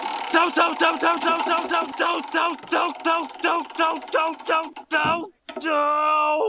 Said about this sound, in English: Let's bust out that wheel of random, and let's give it a spin to see which season we're in.